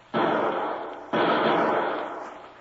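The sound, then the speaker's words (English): Two loud gunshots are fired wildly from a window, each a sudden, broad, booming blast with a long ringing tail, about a second apart, with no voices. “Shots came from that lower window. Yeah, and he hasn't located us. He was firing wildly.”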